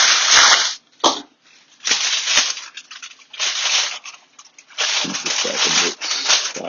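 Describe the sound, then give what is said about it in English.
Aluminium foil is torn and pressed over a roasting tray of short ribs, with several bursts of crisp ripping and crinkling separated by brief pauses. “Just maybe one or two more pieces to ensure that it's completely covered.”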